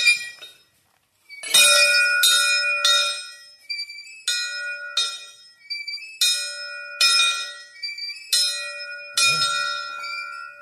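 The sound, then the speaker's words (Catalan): A small chapel bell rung by children, with many bright, ringing strikes in an uneven rhythm. Each strike sounds clearly and decays briefly before the next. “agafo tots els nens petits que hi han aquí i els hi demano que toquin la campana”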